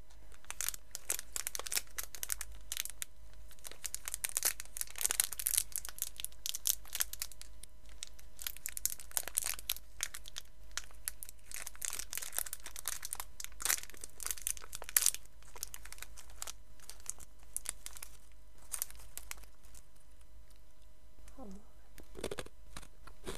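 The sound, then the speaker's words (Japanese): Kaki no tane rice crackers being opened and eaten: packaging crinkles and rustles in many sharp bursts, mixed with brittle crunching, some of it quite loud, over a low steady hum. “今から柿の種を食べます。”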